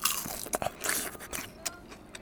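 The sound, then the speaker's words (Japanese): Crispy fried burdock tempura is bitten into with sharp crackling crunches, followed by many smaller brittle crackles and chewing clicks. The sounds are fairly quiet, and no one speaks. “ごぼう天もカラッと揚がってますね。じゃあごぼう天ちょっと、”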